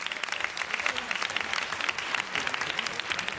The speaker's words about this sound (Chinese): 俾啲掌声